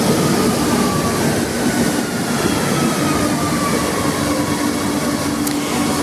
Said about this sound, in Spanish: quiero que te subas conmigo al metro.